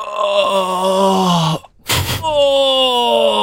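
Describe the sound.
A voice moans, imitating the dubbing of an erotic film: two long, drawn-out voiced moans separated by a short breathy gasp, loud and alone.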